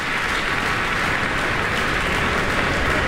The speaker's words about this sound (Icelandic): og það fagnað áfram í smekkfullri Eldborg hörpu